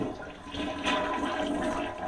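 A toilet flushing: one rushing, gurgling swirl of water lasting about two seconds, fairly quiet and steady throughout.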